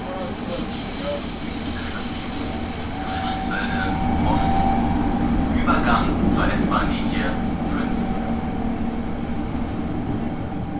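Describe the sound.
Steady, loud rumble and hiss from a Berlin S-Bahn commuter train in motion, with whining tonal hums and brief metallic squeals rising above a constant roar for the full length of the ride.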